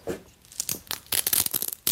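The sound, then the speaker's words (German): Adhesive tape being pulled off skin at the hip makes a few short, rough ripping and crinkling bursts. The bursts come in quick succession, and a final loud rip lands near the end. “Soll ich hier das Klebeband an der Hüfte mal abmachen?”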